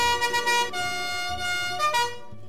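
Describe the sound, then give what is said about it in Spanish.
A cartoon-style sound effect of a magic bus setting off, made of loud, sustained, siren-like horn tones that step between pitches and then stop abruptly near the end. “Subamos al autobús mágico de la Ronda Feliz. ¡Allá vamos!”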